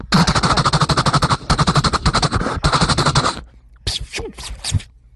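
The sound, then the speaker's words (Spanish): A gunfire sound effect in a comedic border-patrol skit: three long, loud volleys of rapid machine-gun-style shots with brief gaps, followed by a few scattered, quieter sounds. “Sir, we open fire now.”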